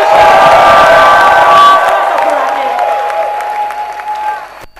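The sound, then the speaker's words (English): A church audience claps and shouts in a dense, loud burst of applause mixed with cheering and raised voices that gradually thins out toward the end. “I want you to clap your hands and give the Lord a shout.”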